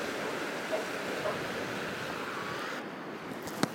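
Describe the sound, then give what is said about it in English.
Waves wash onto Goodrington Sands, a sandy beach strewn with seaweed. The surf makes a soft, steady rush mixed with wind, faint throughout, with a brief sharp click near the end. “Still on Goodrington Sands, and there's much more seaweed now.”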